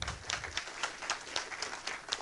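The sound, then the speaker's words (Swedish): Audience applause for a performer, a steady wash of many hands clapping at moderate to faint level, holding even throughout with no talk over it. “Applåd för Dag.”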